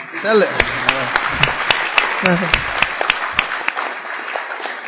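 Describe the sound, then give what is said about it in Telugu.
Audience applause at a religious discourse: many sharp, scattered claps in an uneven rhythm, with a voice talking at the start and again partway through. “If you clap clap nicely.”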